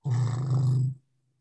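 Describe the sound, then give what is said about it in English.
An elephant's quiet rumbling contact call, the audible upper harmonics of a deep infrasonic call: a single steady low rumble lasting about a second, then cutting off into silence. “it's a quiet rumbling contact call. You're hearing the upper harmonics of a deep infrasonic call, which is traveling through the air and through the land, through the ground.”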